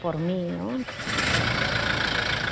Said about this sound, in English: To be even closer to his people, Bishop Prevost purchased this 4x4 vehicle early in his time in Chiclayo. Bishop Prevost had used the truck to reach people in the far corners of his diocese.